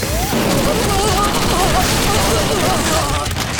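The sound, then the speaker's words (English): Gunfire tears into an enforcer during a fight, a dense, loud, continuous barrage of shots with no pause across the whole stretch. “Zraya's bullets tore into the enforcer, splattering Vilas and Cal with blood. Cal ducked, rolling to the side and out of the line of fire, pulling Vilas with him.”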